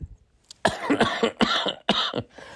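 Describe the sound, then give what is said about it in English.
A fit of harsh, rasping coughs from a man with a persistent cough lasting weeks, several loud bursts in quick, irregular succession. “So I've been coughing, if you guys have noticed, for like, what, the last 6 weeks”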